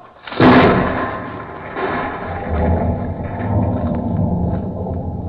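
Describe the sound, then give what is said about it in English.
A blasting explosion: a sharp, loud burst at the start gives way to a long, deep rolling rumble that swells again and lingers to the end. “Okay, everybody, clear. We're blasting!”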